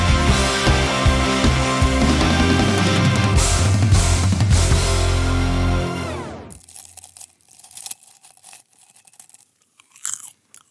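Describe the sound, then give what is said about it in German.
Crunchy chewing of a mouthful of popcorn: soft, irregular crunches at a moderate level, heard alone after a loud, dense passage cuts off abruptly. “Popcorn. Irgendwie so richtig lecker und ich habe noch ganz schön viel im Mund”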